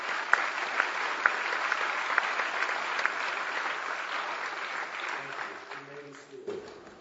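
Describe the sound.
Applause from a church audience welcomes new campus ministers, with a few sharp claps standing out early in the dense clapping, which gradually fades as a voice begins speaking at the end.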